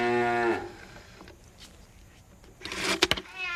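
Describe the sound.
A children's electronic animal toy plays a cow moo, one buzzy, slightly falling tone at the start. A brief mechanical whir and a few sharp clicks follow near the end.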